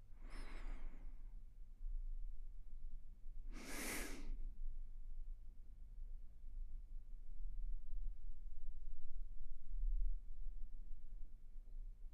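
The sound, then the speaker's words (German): Two soft, slow breaths during a calm relaxation exercise, heard as airy whooshes a few seconds apart. The first is fainter and the second fuller, both over a quiet steady hum. “Einfach nur einatmen. Ausatmen. Weil es so schön ist, noch ein paar Mal ein- und ausatmen.”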